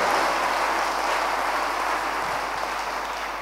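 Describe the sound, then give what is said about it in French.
Congregation applauding to acclaim God during a church sermon: an even, continuous patter of clapping at moderate level that eases slightly toward the end, with no talk over it. “Est-ce qu'on peut acclamer le Dieu qui est dans le plan?”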